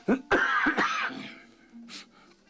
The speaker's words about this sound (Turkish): Konuşunca mı azıyor öksürüğüm, şarkı söyleyince mi bilmiyorum.